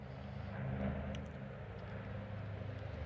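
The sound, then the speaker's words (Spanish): Airplane flying overhead, a steady, broad, low rumble that holds evenly throughout with no voices. “Tenemos avión.”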